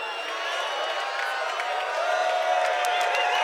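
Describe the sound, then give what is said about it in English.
A huge festival crowd at a Glastonbury gig cheers and whoops in a dense, sustained roar. Scattered whistles and shouts rise above it, and the noise swells slightly toward the end. “Glastonbury, this is officially the biggest gig we've ever done. Like, this is the biggest crowd we've ever played.”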